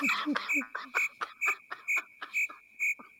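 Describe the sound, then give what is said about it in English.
Crickets chirp outdoors in a field under the stars. Evenly spaced, high, bright chirps repeat in a steady rhythm, fairly faint against a quiet background. “It's just you and me, new girl, out here in the crickets. The field okay. With the crickets.”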